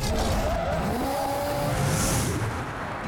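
Tires squeal as a car drifts into handbrake-entry donuts under throttle, over a continuous loud engine roar that holds steady throughout.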